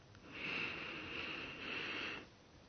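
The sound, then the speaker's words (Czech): A person draws a deep, slow breath in during a guided breathing exercise before a prayer: a steady, hissing airflow lasting about two seconds that swells twice, with no talk over it. “Tak nádech,”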